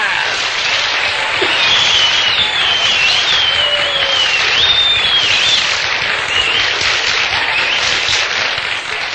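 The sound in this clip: Loud, sustained applause from an audience welcoming a conjurer onto the stage at a Bronkhorstspruit variety show, a dense steady roar of clapping mixed with crowd noise from start to finish.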